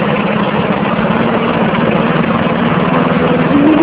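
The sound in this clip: A carburetted engine idles with a continuous, even low rumble and a steady hum that holds through the whole stretch, with no clear start-up burst.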